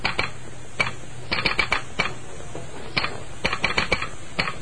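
A telegraph clicks as a message comes through: many sharp mechanical clicks in irregular groups, heard alone.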